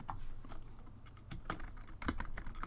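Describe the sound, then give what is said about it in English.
Faint typing on a computer keyboard as someone writes something down: a few scattered, irregular keystroke clicks over a low, steady hum. “Hold on, I'm writing that down.”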